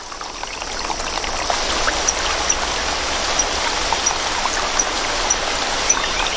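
A babbling mountain stream in a rainforest, its water level rising, gives a steady, full rushing and gurgling wash of water, with faint high drips and splashes sparkling through at irregular moments.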